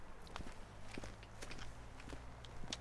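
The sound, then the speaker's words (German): Footsteps walking downhill outdoors, a steady series of soft, crunchy steps at an even pace over a low background rumble. “So, wir laufen mal weiter. Aber durchaus ein spannendes Thema. Komm, wir gehen da runter. Wir gehen da runter.”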